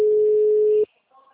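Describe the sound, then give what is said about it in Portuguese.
Telephone ringback tone heard while calling someone: one steady, mid-pitched electronic beep holds for under a second, then cuts off, leaving near silence with a faint trace of sound. “Tô ligando pra ele, da Una.”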